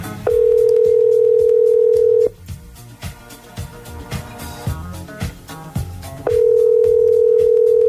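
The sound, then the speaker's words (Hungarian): A steady telephone dial tone sounds as a radio show calls its listener of the day. It holds loud and unbroken for about two seconds, gives way to a busier stretch of other sounds, then returns just as steady. “Mert 10 óra van, és hívjuk a nap hallgatóját.”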